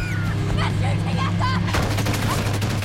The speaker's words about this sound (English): towards the Cenotaph, an attack chopper hoves into view overhead. Bullets rip up the road behind the car.